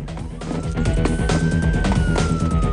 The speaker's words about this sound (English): Dom sprints off down an alleyway, and the cops pursue in their car.